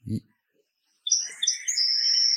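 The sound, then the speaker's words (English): Parrots chirping in a house: after about a second of near silence, a dense, continuous run of high, shrill chirps and whistles begins and holds steady to the end. “I fucking feel like there's parrots in my house.”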